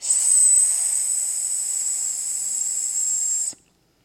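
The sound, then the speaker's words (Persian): A voice holds a long hissing "sss" imitating a snake as a speech exercise, one steady, bright hiss lasting about three and a half seconds before cutting off abruptly. “س بکشه مثل مار. این تمرین رو هر روز یک دقیقه انجام بده. س لبخند با لبخند فقط صدای س رو میکشه.”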